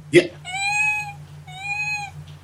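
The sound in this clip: A person imitates a kitten's meow with two drawn-out, high, steady mewing calls after a brief sharp sound, all over a low constant hum.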